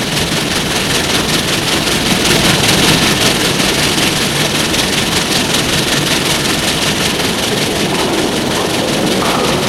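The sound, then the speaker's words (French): A train arriving at a station gives a steady, heavy low engine rumble with a constant mechanical hum, loud and even from start to finish, with no voices. “Le train arrive en gare.”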